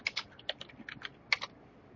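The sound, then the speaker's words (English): Typing on a computer keyboard while entering a card name into a search box for a card game: a quick, uneven run of crisp key clicks with short pauses, and no talking. “We can just type in archetype.”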